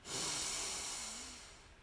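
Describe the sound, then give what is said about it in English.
A single soft, deep breath drawn in through the nose during a belly-breathing exercise. It is a faint, airy hiss that swells quickly, then tapers off over under two seconds. “So breathe in, extending your belly. And out. Breathe in.”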